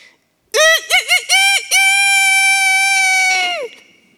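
A rooster crows early in the morning: a few short, clipped notes, then one long, loud, sustained note that drops in pitch at the very end, with no voices over it.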